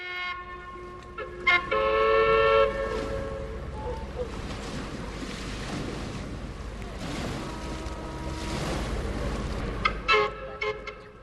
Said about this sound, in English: That's the toot of the paddle steamer Marion.